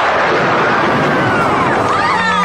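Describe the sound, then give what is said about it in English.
A lightning bolt spell blast in a fantasy adventure: a loud, continuous crackling roar with faint sweeping tones running through it, sustained from start to finish. “Use your lightning bolt.”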